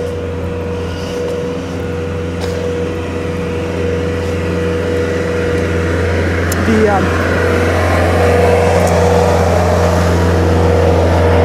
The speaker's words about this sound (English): There's a guy driving a little... Bobcat.